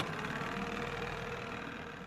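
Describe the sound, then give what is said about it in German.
A motorboat engine drones on the river Rhine near Bonn as a survey boat sets off, a steady, even, mid-pitched hum with a rough vibrating texture and no breaks. “Ingenieur Storch springt daher wieder ins Boot und fährt los”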